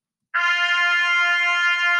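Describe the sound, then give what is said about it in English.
A trumpet sounds the note F, played with only the first valve pressed: a single clear, bright brass tone that starts abruptly and holds steady at an even level to the end. “The F note is played by pressing only at the first vowel and should sound like this.”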